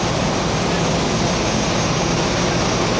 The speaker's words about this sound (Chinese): 这里是重庆湘北国际机场，就在刚刚，赴京参加庆祝中国共产党成立105周年大会，七一勋章获得者马善祥乘坐的航班平稳落地